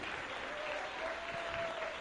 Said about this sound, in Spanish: Dale un aplauso al Rey.